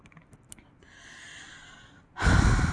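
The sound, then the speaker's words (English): Heavy breathing close to the microphone: a soft, drawn-out inhale, then a loud, rushing hot exhale at the end. “Gonna feel my hot breath.”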